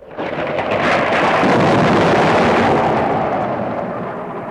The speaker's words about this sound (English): Waves crash onto the rocks. Water funnels into narrow channels and rock pools.